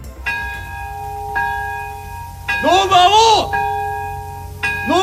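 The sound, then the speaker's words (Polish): A church-type bell tolls at an atomic bomb memorial ceremony marking 80 years since the bombing of Nagasaki. Five ringing strikes, about a second apart, each leave a long humming tone, with a voice briefly heard over the middle strikes. “O 11:02, czyli o godzinie, o której 80 lat temu amerykański ładunek nuklearny eksplodował nad japońskim miastem, rozległo się bicie dzwonu.”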